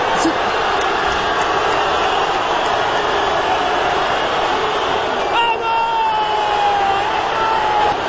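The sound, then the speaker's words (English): A crowd of Portuguese football fans cheers outside a hotel in Toronto after a win, making a dense, continuous roar of many voices at constant high loudness throughout. “So that is Ronaldo on a balcony at a hotel in Toronto, and that noise is fans.”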